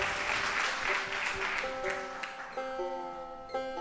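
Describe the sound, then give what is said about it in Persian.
Audience clapping for a guest: a short burst of applause over sustained tonal musical notes, with the clapping thinning out while the tones carry on. “به افتخار فرهام بزنید دست قشنگه رو”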